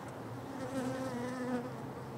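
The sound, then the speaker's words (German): Honeybees, including drones, buzz inside an opened hive, making a faint, steady, low drone with a slightly wavering pitch. “Hier sind sogar noch Drohnen drin. Das sind die Männer. Die werden bald rausgeschmissen im Winter. Die werden nicht durchgefüttert von den Bienen.”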